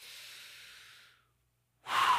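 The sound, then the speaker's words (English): A deep breath taken during a sermon: a long, airy rush of breath lasting about a second that fades into silence, then a second breath starting abruptly at the end, with no talking. “Come on, can we just take a deep breath?”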